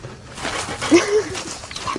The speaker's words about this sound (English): Come on, speak. Good boy. But can dogs really talk to us by barking?